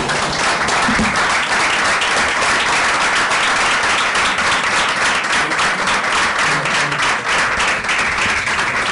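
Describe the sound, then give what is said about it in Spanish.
Sustained audience applause at the close of a gathering on environmental education: dense, steady clapping that stays loud throughout, with no break. “Todos los aplausos juntos, muy prolijos.”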